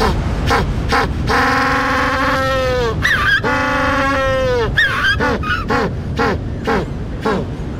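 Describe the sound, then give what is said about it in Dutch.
African penguins, also called black-footed penguins, bray loudly. Two long, donkey-like harmonic brays are set among many short, sharp honking and gasping notes in a continuous, cacophonous run. “En met name de zwartvoetpinguïn of de Afrikaanse pinguïn, dus de enige pinguïn die in Afrika broedt”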